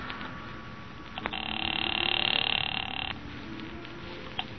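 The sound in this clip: A telephone ring sounds down the line as an operator connects a call to Long Beach: one sustained buzzing ring burst of nearly two seconds, with a faint click before it and another after it, over low line hiss.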